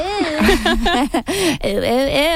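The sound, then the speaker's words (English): A voice imitates Gwimbly from the animated show Smiling Friends with bouncy, high, warbling cooing calls in two quick runs of three, the pitch swooping up and down on each note. “If you know what that sound is, that is Gwimbly from Smiling Friends.”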